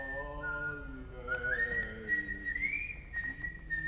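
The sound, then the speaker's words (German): A man whistles a short tune alone, a clear, fairly soft tone that steps upward partway through and then holds over a faint low hum. “Und plötzlich pfiff er sogar.”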